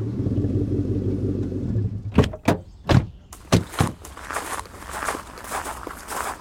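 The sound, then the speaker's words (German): Footsteps of people walking on after a car stops outdoors at night near an allotment garden. A low engine-like rumble fills the first two seconds and fades, followed by a series of sharp, distinct steps, then fainter shuffling steps. “Okay, dann gehen wir wohl von hier aus jetzt besser zu Fuß weiter.”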